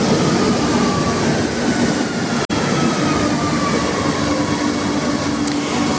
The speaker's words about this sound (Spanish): Y a las 2:26 quiero que te subas conmigo al metro.